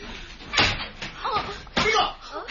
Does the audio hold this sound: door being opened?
yes